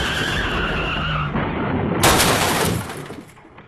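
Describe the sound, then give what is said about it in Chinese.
A refrigerated truck skids and crashes into a tree: a rough, tonal rush of engine and tire noise gives way to a loud burst of harsh impact noise that fades quickly into quiet. “车轮压上了一块碎石，调转不及，冷藏车猛地冲向一旁的大树。”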